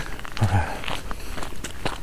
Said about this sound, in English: I'm walking up a trail. Everybody's walking up it.